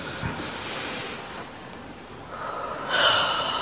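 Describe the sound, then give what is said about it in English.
A deep breath is drawn in slowly, a soft, airy hiss that swells and grows louder toward the end. No one talks. “Take a deep breath.”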